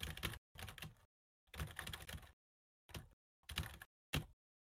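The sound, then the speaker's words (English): Rapid key clicks of typing on a computer keyboard come in six separate bursts with short silences between them. The bursts are of varying length, and the last is the briefest. “You hear her typing.”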